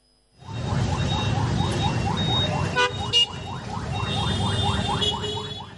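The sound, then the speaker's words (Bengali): Highway traffic in Khulna, with a constant low engine rumble under many rapid, repeated rising electronic chirps like an alarm or siren. A few short horn toots break through midway. “আমাদের বেতার প্রতিনিধি খুলনার বিভিন্ন মহাসড়ক ঘুরে তুলে এনেছেন traffic ব্যবস্থাপনার বর্তমান প্রতিচ্ছবি।”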